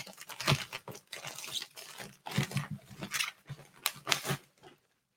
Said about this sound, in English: Let's get this box, this package open. Just kind of tear into it, barbarian style.